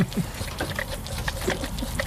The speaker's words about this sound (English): It's the sound of two very hungry baby goats at feeding time.